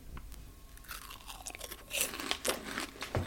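Crunchy health snack dipped in spicy tomato sauce being chewed: quiet, irregular crisp crunches and bites, several in a row, with no talking.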